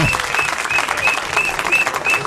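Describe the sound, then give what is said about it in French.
Audience applause: dense, steady clapping from many hands, loud and continuous throughout. “Et je pense que ça s'applaudit, ça.”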